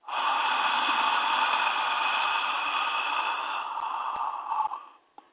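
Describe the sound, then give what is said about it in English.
A long, steady breath out through the mouth during an alternate-nostril breathing exercise, lasting about five seconds as one unbroken airy rush and tailing off at the end. “breathe in through the right nostril, hold it, out through the mouth”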